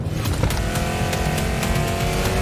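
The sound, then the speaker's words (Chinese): Two race cars dueling on a racetrack, their engines roaring in a continuous, dense, high-pitched drone with no let-up. “两辆赛车丝毫不肯退让，激烈争夺着这条赛道的主权。”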